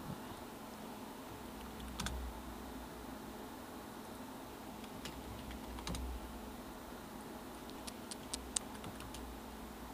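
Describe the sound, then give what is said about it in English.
Typing on a computer keyboard while searching for a song, faint sparse keystrokes that fall in a few small clusters over a quiet hiss. “You guys get to hear me type while I look for a song.”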